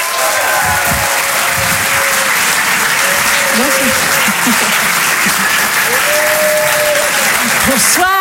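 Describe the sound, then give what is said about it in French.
A theatre audience at the Apollo Théâtre applauds a comedian's entrance, with dense, loud clapping held steady throughout and a few crowd voices mixed in. “je vous demande de l'encourager très très fort. Voici en direct sur Rire et Chanson, Elisabeth Buffet.”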